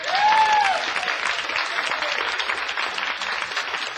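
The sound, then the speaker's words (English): Audience applause at a comedy show as a performer is welcomed to the stage: a dense, steady clatter of clapping that holds for the full four seconds, with a brief whistle-like tone near the start. “put our hands together and welcome my friend Ed Casher.”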